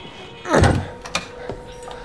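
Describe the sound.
A door is opened by its handle: a soft rattling thump of the latch and door, then a single short click, with quiet background noise after.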